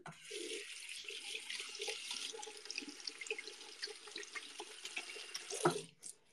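Water runs steadily from a tap as someone washes their hands at a sink. A continuous rushing splash with small drips lasts about six seconds, then stops abruptly.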